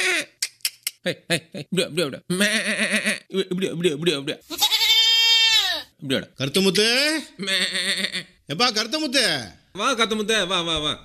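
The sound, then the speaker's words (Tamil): Goats bleating as two newly bought goats are herded out to graze: many loud, wavering, quavering cries, some drawn out, alongside people talking. “என்னைக்கு இல்லாம ஆடு ஓட்டிட்டு போற? ஆமா, நேத்துதான் ரெண்டு வெள்ளாடு வாங்கினா. சரி, மேய்ச்சலுக்கு அழைச்சிட்டு போறேன்.”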